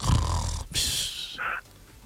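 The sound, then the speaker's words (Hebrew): A voice imitating a wife snoring in the small hours: a low rumbling snort, then a long breathy hiss and a brief higher wheeze, fairly loud and without other sounds. “אשתו בשעה כזאת נוחרת.”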